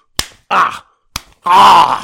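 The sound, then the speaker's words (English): A man slaps his own face: two sharp, loud smacks, each followed by a drawn-out voiced groan. “There, three slaps to wake myself up.”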